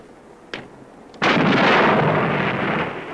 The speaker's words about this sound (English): At 700 feet per second, the parted line snaps back at nearly the speed of a 45 caliber bullet.